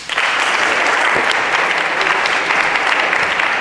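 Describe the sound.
An audience applauds to welcome a professor as speaker: dense, steady clapping that stays loud and even throughout, with no voices over it.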